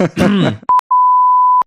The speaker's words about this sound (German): Piep.